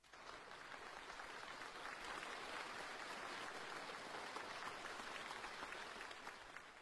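Warm applause from a large audience fills a meeting hall as a leader enters a delegation session, a dense, even wash of clapping that holds at steady loudness from start to finish.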